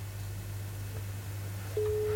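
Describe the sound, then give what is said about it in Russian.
A telephone ringback tone sounds after a number is dialed: low steady line hum, then near the end a single clear, mid-pitched steady tone begins and holds. “О, гудки есть. О, гудки есть”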